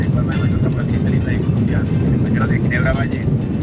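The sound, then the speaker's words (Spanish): Airplane engine running nearby: a steady, loud low roar continues unbroken throughout, with a man talking over it. “no le entendemos, hermano. Quítese de ahí el lado del motor del avión y verá.”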